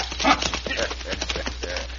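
Hoofbeats of horses ridden away in a radio drama Western: a rapid, uneven clip-clop of hooves that stays fairly loud throughout.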